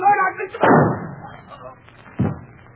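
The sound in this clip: A gunshot in a radio drama: a brief voice, then a loud sharp bang that decays, and a second, smaller bang a moment later.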